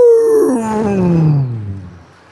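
A tiger's roar, loud and harmonic-rich, starting high and sliding steadily downward in pitch for about two seconds before fading into a lower rumble.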